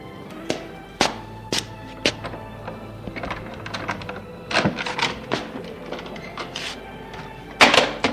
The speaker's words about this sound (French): quitte sa veste et met la caméra dans le placard d'entrée